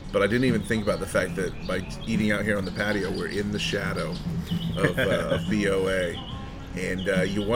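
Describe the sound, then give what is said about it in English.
Birds chirp outdoors on a café patio in Charlotte, their short high tweets coming and going faintly beneath steady, continuous conversation. “As we hear, you know, we're hearing some birds chirping here.”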